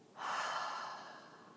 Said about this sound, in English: Let's take a nice big breath in through your nose, inhale, and exhale. Again, inhale, and exhale.